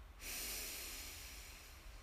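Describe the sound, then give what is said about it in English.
A single deep breath in during a guided relaxation exercise: a soft, airy nasal inhale that starts after a brief pause and runs nearly two seconds, faint and alone. “Another deep breath in”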